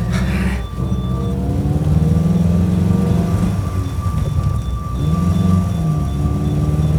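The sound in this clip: A car accelerating away, shifting into second gear: a loud, low engine roar whose revs climb in pitch, dip, then climb again.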